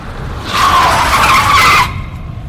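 A car's tires skid and squeal in one loud, sustained screech lasting about a second and a half, then cut off abruptly into quiet rumble.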